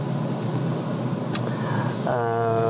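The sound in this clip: A car driving on the way to a detention facility: a steady, low road and engine rumble runs throughout, with a brief click partway through.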